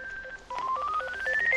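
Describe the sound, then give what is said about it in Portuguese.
A mobile phone ringtone plays as a string of electronic beeping tones that step upward in pitch. The tones are clear and moderately loud, with no talking. “é o telemóvel, já foi.”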